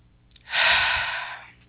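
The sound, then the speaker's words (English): A single deep breath, slow and airy, swells up and fades away over about a second, taken alone with no talk, as part of a calm spiritual practice. “And we can take a deep breath.”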